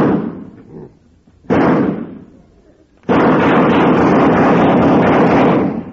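A gunshot fired at a fly on a wall: a sudden loud blast, then a pause and a long, loud sustained crashing roar that holds for several seconds before easing off.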